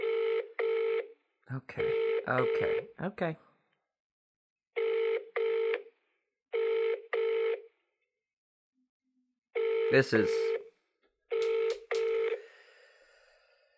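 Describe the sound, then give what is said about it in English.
Telephone line connecting tones sound in repeated short pairs of buzzy beeps, separated by gaps, while a person talks over some of them. “Please stay on the line while we connect you.”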